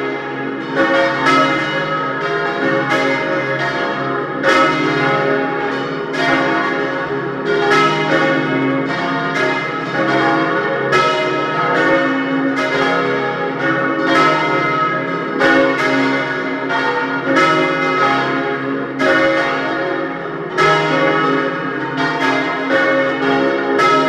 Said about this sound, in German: Es ist 12 Uhr. Sie hören die Glocken der Pfarrkirche zum heiligen Martin in Dölsach bei Lienz in Osttirol.